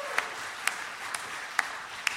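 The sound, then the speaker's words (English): A church audience applauds during a Sunday service: a soft, steady wash of clapping with five sharper, evenly spaced claps standing out. “Round of applause to the Lord God Almighty.”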